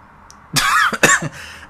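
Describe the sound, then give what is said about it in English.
Coughing from choking on saliva: a short fit of a few harsh, wet coughs and throat-clearing bursts, loud and close together, fading into a softer rasp. “Excuse me, I'm choking on my own spit.”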